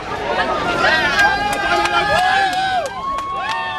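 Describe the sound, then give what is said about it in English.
A crowd gathers at a race finish line in Bethlehem's Manger Square, a steady murmur of many voices with raised calls rising above it and a few sharp clicks. “And here at the crowded finish line in Bethlehem's Manger Square, and we haven't seen this many visitors here in Bethlehem, a town so dependent on tourism, for a long time.”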